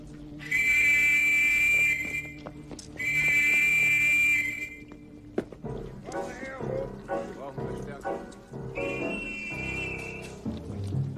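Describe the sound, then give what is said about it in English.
Two long, shrill whistle blasts from a Nazi soldier, then a stretch of shouting voices and commotion, and later a shorter, fainter whistle blast. “One raises a whistle to his lips.”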